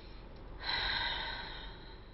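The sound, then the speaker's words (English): A single breathy exhale, sent in as a sound sample to be placed in a song, starting soft, swelling into a strong rush of air and then slowly fading. “she sent the sound of exhaling, which I thought was an awesome choice. So you'll hear it right after the instrumental break, and this exhale right into the words.”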